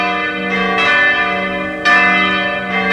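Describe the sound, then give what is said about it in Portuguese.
Church bells ring out in Sobradinho with a few resonant, sustained strikes. Each tone hangs and overlaps the next in a rich, humming chime. “6:01, 6:01, ainda se ouve no badalar dos sinos, como é lindo aqui em Sobradinho, esse badalar que é o anúncio, é o Senhor que te chama para mais um dia.”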